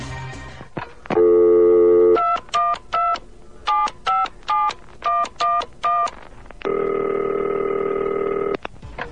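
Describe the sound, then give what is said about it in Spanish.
Telephone call being placed for a call-in segment: a steady dial tone, then a rapid run of many keypad beeps at shifting pitches, followed by another long continuous tone and a final short beep. “Arisbel García Méndez me hace señas de que tenemos la primera llamada para esta sección a través del hilo telefónico. Allá vamos.”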